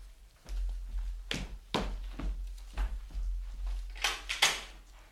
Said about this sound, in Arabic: من يدق الباب؟